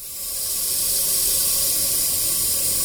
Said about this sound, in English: Right next to the condensate tank, an abandoned well that was drilled in the 60s is making this noise. The sound you hear is gas venting into the air from some underground rock formation.